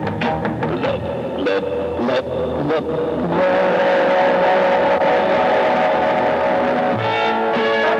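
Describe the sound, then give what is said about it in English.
A sick-sounding car engine runs rough, with uneven sputtering bursts over the first few seconds before settling into a louder, steady drone. “When your car engine sounds sick, Give it a treatment.”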